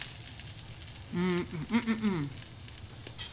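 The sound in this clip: Food frying in oil in a pan gives a faint, steady sizzle and crackle that runs beneath a voice speaking in the middle.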